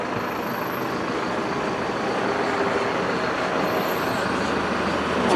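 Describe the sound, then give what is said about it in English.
Heavy rumble of a FedEx delivery truck passing by, a steady broad roar of engine and road noise that holds evenly and swells slightly toward the end. “Oh, here comes FedEx again. Come on.”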